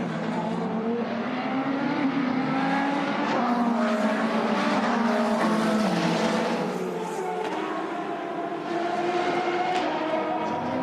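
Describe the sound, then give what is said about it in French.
Race cars accelerate at a green-flag restart after a safety-car period in an endurance sports-car race with GT cars, including a Ferrari. A loud, continuous, layered engine roar with shifting tones fills the whole clip. “Attention, voilà, drapeau vert. L'on ne double pas, messieurs, avant la ligne de chronomètre, la ligne de safety car. Mais on va voir si Antonio Foucault aussi, avec la Ferrari 50, respecte les consignes de l'ingénieur. Faites le jeu, c'est parti.”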